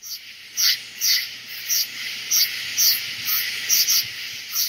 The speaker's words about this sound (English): Here's a little southern summer night to get us in the mood for night and darkness.